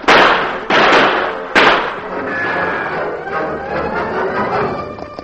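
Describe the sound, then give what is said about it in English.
Gunshots in a shootout as crooks fire at troopers among trees: three sharp, loud cracks within the first second and a half, each trailing off, then a sustained noisy wash. “Tonto, those crooks are busy firing at the troopers.”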